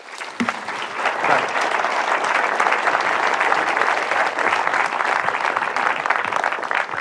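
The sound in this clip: Audience applause welcomes filmmaker Gus Van Sant and architect Brad Cloepfil at a talk about Portland. Dense, steady clapping breaks out almost at once and holds at full strength without pause for about seven seconds.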